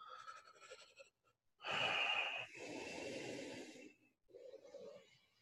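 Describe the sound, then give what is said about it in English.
Ujjayi breathing through an open mouth: loud, hissing airflow in a few long strokes, the strongest and harshest near the middle, followed by a softer, fainter breath at the end. “Begin generating the sound of ujjayi breath. Maybe that begins just by having your mouth open and getting airflow.”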